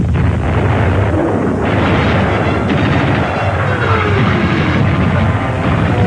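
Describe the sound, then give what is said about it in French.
Artillery fire from German batteries during the battle of Stalingrad, shooting to halt a Soviet attack: a loud, unbroken roar of overlapping booms and rumbling blasts that runs without pause for the whole clip. “Les batteries allemandes ouvrent le feu dans le but d'enrayer une violente attaque soviétique.”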